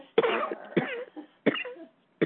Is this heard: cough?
yes